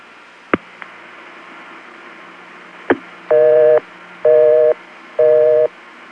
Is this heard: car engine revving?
no